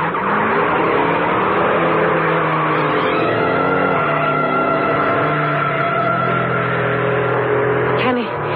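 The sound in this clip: Race car engine roaring steadily around a track, a sustained loud drone with rising and falling pitch sweeps as it takes a curve and speeds down the straightaway, ending in a brief sharp squeal.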